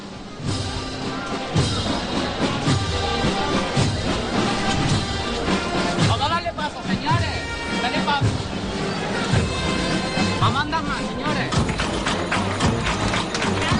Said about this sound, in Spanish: con esta marcha la gitana, que como curiosidad, justo en esta parte, en vez de los típicos cascabeles, escuchamos las palmas por parte de la banda al compás de la marcha.